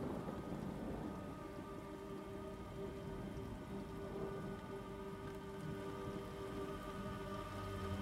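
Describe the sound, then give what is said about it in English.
A thunderstorm with steady, dense rain pattering on surfaces and a low rumbling of thunder, constant and loud across the whole stretch with no voices. “The fog starts to dissipate as lightning cracks across the sky”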